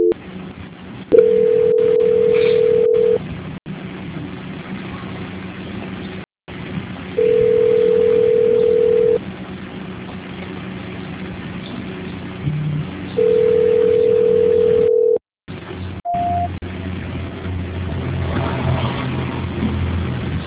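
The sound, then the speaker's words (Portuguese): Three long, steady telephone tones of about two seconds each play over a narrowband phone line while a caller is held during a call transfer, with stretches of line hiss between them. “Peço que guarde na linha para eu transferir o contato”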